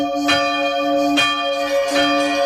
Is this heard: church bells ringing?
yes